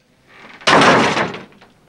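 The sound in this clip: A heavy classroom door, held open with a chair, slams shut. A soft shuffle comes first, then one sharp, loud bang that dies away in a short rumbling tail.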